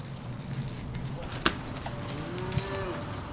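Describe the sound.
Dairy heifers being rounded up on a farm near Waukon, Iowa: a faint, low cattle moo drawn out near the end over quiet outdoor background, with a sharp click just before it.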